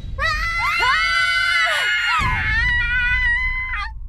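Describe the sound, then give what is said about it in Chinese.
Several people scream loudly together, their shrill, overlapping voices wavering and holding for several seconds without a break. “蝈蝈足以掀翻房顶的尖叫声拔地而起，郑婉晴和张友紧随其后，二话不说扯着嗓子开始嘶吼”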